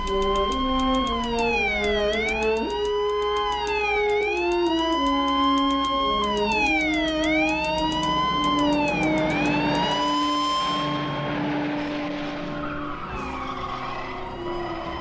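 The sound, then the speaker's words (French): Police sirens wail in repeated rising-and-falling sweeps over the roar of cars in a long film car chase. The sound is loud and continuous throughout, with rougher engine and tyre noise building in the second half. “La course poursuite qui dure un certain temps, qui est assez longue.”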